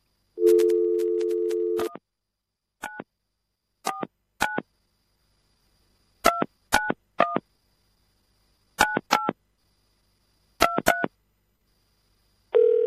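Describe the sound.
Telephone dialing tones sound as a call is placed: a steady dial tone, then ten short keypad beeps in irregular small groups separated by silences, with another tone starting at the very end.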